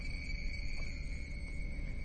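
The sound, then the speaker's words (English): Insects in Southeast Asia fill the air with a faint, steady high-pitched trilling drone, with a thin sustained tone held unbroken throughout and no voices. “Right now, we're listening to the sound of insects in Southeast Asia”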